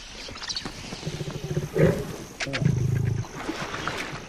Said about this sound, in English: The lion is still padding around near the carcass, licking its lips in anticipation.